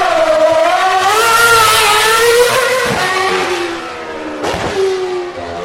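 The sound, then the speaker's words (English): A race car engine running at a motor racing circuit after its front wing was damaged, a loud revving tone that rises in pitch, sags, then climbs again, with no talk. “Well, if the car will run. They've clipped the whole front. Oh, the front wing is trashed on the corner. I'm going to run down there and get the sound.”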